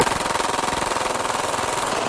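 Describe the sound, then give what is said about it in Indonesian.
Automatic gunfire from a Glock 17 pistol fitted with a Glock switch and a 50-round magazine: a loud, continuous burst of rapid, closely spaced shots runs for about two seconds without a pause. “This is a normal Glock 17 with a Glock switch and a 50 round magazine taken from the same suspect.”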